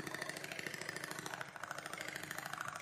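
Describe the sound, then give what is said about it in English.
Rapid mechanical chatter of a Singer 5802C sewing machine stitching: a fast, steady, even pulse with a brief dip partway through, heard faintly. “The composer Natalia Bayliss made an album from sewing sounds recorded on a Singer 5802C.”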